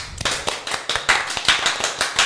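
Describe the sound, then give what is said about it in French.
Audience applause after a small group of performers' show, a dense run of sharp overlapping hand claps swelling in uneven bursts, loud and steady for a couple of seconds without talk. “Vous pouvez vous applaudir.”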